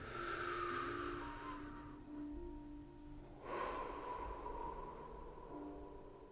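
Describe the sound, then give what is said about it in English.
A deep breath is drawn in through the nose and let out through the mouth. A soft, airy inhale is followed after a pause by a faint, longer exhale over a low tonal background. “Take a breath for me really quick.”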